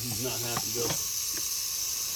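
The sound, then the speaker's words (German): Rattlesnake shaking the rattles on its tail while coiled in a house kitchen behind a dog bowl: a steady, high, hissing buzz runs through the whole clip, with a brief voice near the start. “Als Schlangenfänger Bruce auf sie zugeht, richtet sie ihren Kopf auf und beginnt bedrohlich mit ihren Rasseln am Schwanzende zu klappern.”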